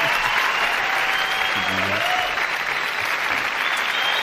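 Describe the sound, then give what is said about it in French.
A noisy studio audience applauds during a live radio music session, with loud, dense clapping that continues without a break for the whole stretch. “Attendez, je vais faire taire le public un peu parce qu'ils sont bruyants.”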